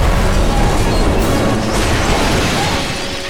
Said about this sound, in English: The sound grew deafening, then the pump exploded, sending pieces of metal shrapnel into the air.